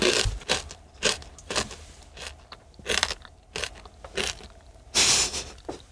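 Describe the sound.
Biting and chewing a blue, squid-tasting seafood-flavoured snack gives many crisp, dry crunches in an uneven rhythm, each sharp crack separated by quieter chewing, with an especially loud crunch near the end.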